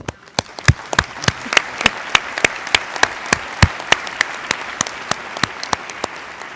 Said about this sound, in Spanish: Podemos darles un aplauso.